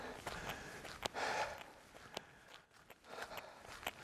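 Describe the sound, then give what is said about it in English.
Footsteps of a runner walking up a steep hill on a road mid-run: soft, evenly spaced steps in a steady walking rhythm, faint and unaccompanied by talk. “I'm actually gonna walk this hill. I will have a really steep one coming up later on this run, so I'll walk this one.”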